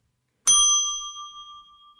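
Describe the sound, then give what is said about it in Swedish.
One bright bell ding strikes cleanly and then rings out in a long, fading metallic tone. “du behöver, nu, behöver du ta, nu behöver du plinga.”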